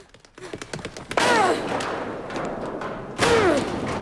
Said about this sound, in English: where a high wall of rusting corrugated iron awaits him. He bangs into it.